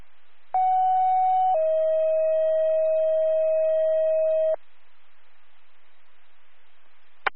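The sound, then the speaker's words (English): Fire dispatch radio cancel alert tones from a Sydney fire service channel: a short, loud, steady higher tone, then a longer, slightly lower steady tone lasting about three seconds. Faint radio hiss follows, ending in a brief click. “We'll put out cancel tones 1814.”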